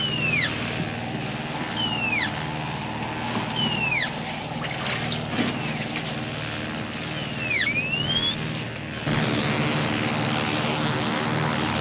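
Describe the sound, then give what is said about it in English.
A small aircraft in flight gives a steady propeller-engine drone that holds level throughout, with a few high whistling sweeps above it. “How'd you like a little aircraft? Boy, I'm going to be a pilot as soon as I'm old enough.”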